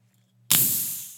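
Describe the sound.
A shaken soda can cracked open: after a near-silent moment comes a sudden sharp burst, then a bright hissing spray of fizz that slowly fades.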